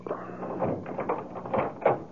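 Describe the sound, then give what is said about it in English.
A door lock being opened gives a few dull clicks and clunks at moderate loudness, with no steady sound between them. “You open the lock. Okay, here goes.”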